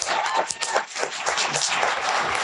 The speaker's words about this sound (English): But hey, let's round of applause for our panel.